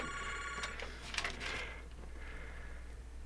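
A telephone rings with an incoming call, a faint trilling ring in short bursts over a steady background hum.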